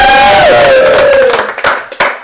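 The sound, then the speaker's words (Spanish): An audience gives an ovation, cheering and shouting with applause. A loud sustained roar gradually thins, and a few sharp claps stand out near the end. “Ahora sí que quiero vuestra mejor ovación.”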